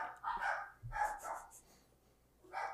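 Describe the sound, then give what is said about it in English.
Dogs barking in a few short, rough bursts, with a gap before a final bark. The barks are fairly faint. “the dogs are mad about Squid Game”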